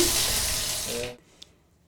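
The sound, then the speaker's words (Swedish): Water pours from a tap over a shallow basin used for washing before Muslim prayer, a steady rushing stream that cuts off partway through, followed by a single faint click. “visade hur man tvättar sig innan man gör den muslimska bönen”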